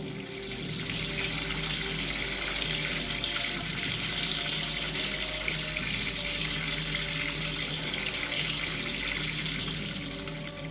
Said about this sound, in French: Rempli d'eau le seau.